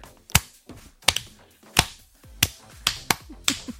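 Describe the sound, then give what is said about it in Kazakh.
Sharp hand claps ring out in a studio: several crisp, bright smacks in an uneven rhythm, each clear and loud, with faint softer taps between them and no talking. “Шапалақ. Шапалақ ұрып жатыр.”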